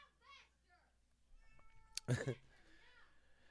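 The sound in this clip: An unneutered young male cat meows in a room, giving one loud, strained, drawn-out cry that stands out sharply against quieter background sounds.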